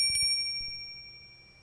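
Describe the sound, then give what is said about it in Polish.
A small bell rung during a mindfulness practice, its bright, high ring fading slowly into quiet with no voices. “Uważnie zadzwonimy dzwoneczkiem.”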